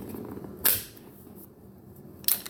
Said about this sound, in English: so I've loaded up this magazine with snap caps, aka dummy bullets, and now it's time to practice dry firing